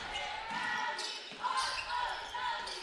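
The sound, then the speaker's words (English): Basketball dribbled on a court during a girls' high school playoff game, repeated bounces under commentators' voices. “She's doing some interesting dribbling moves.”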